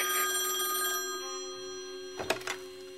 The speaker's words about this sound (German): das Telefon klingelt.